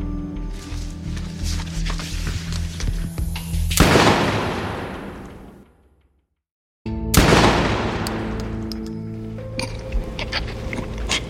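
Gunshots in a dramatized shooting: two loud, sharp blasts, each followed by a long decaying ring, separated by a brief moment of silence over a busy background.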